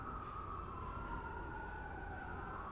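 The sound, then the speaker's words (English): An emergency vehicle siren sounds outside as a faint, steady wailing tone held throughout, with no talk over it. “If you can hear the sirens out right now, I always say that those are truth sirens.”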